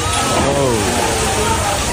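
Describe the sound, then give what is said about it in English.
Raw sewage pouring through a collapsing ceiling makes a loud, continuous rushing, sloshing wash of water, with voices heard over it. “Here's the moment caught on camera when raw sewage began spilling out. There goes the ceiling.”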